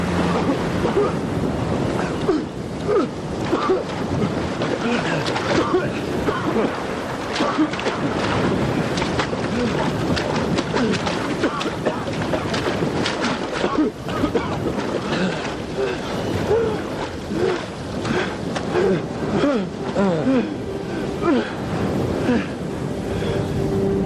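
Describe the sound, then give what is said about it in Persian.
Sea waves and wind wash around a ship sailing away over open water. A loud, continuous roar of surf and gusting wind fills the whole stretch, swelling and easing unevenly. “کشتی اونا داره میره.”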